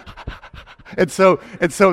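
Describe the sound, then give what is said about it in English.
A person's voice imitating an excited dog being offered a treat: quick breathy pants, then several short, eager, voiced "oh" yelps in a bouncy rhythm. “the dog, whenever the owner would come out to it with a treat, he's like, "You want a treat?" And the dog would be like, "Oh, oh, oh."”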